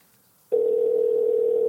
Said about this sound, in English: let's dial up our Leprechaun friend Seamus